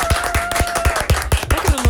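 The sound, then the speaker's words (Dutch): Rhythmic clapping beats out a quick, steady pulse of sharp, loud claps over about two seconds, with a thin sustained tone running underneath. “Zoveel applaus gekregen.”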